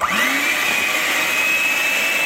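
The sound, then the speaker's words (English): An electric egg beater whips peanut butter frosting made with butter, sugar, vanilla and pink salt, giving a loud, steady motor whine that climbs in pitch at the start and then holds level. “Now we're gonna take this egg beater.”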